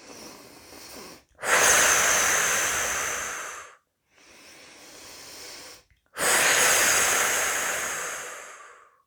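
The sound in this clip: Deep breathing during a guided relaxation exercise: two slow breath cycles, each a softer, airy inhale followed by a longer, louder, hissing exhalation, with no talking.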